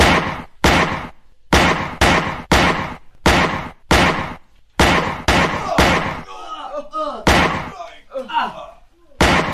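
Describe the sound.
Gunshots ring out in a staged radio drama shootout, many sharp, loud bangs in an irregular volley. Voices come in among the later shots.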